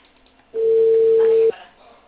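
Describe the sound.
A telephone ringing tone on an outgoing call: a single steady mid-pitched beep lasting about a second, heard alone over faint line hiss.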